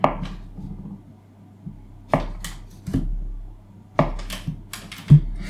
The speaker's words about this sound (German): die Butter für den Vanillepudding werde ich einfach in kleine Stücken schneiden, damit das in der lauwarmen Grütze dann auch vor sich hinschmilzt.